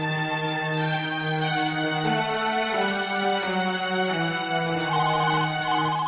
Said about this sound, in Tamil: Vasantha, phone பண்ணி அடிக்குதே, யாருன்னு பாரு.